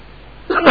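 A single short, sharp sneeze bursts out at an Islamic religious study session, loud and abrupt after near-silence.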